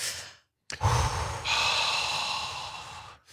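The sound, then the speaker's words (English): A long, deep cleansing breath taken together by a group, a rushing, breathy exhale that starts abruptly after a short silence and holds steady for over two seconds before fading. “we're going to all join together and hold hands and take a collective cleansing breath.”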